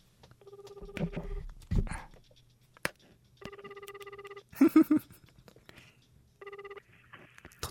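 Telephone ringback tones from an outgoing call being placed, three bursts of a buzzing ring spaced a few seconds apart, with short beeps and clicks in between over a faint steady hum.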